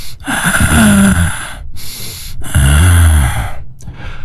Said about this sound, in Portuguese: Respira fundo.